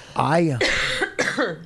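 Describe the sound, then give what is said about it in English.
A person coughs hard in a few rough, throaty bursts in quick succession, each with a rasping, voiced edge. “Because I'm gonna start coughing like crazy.”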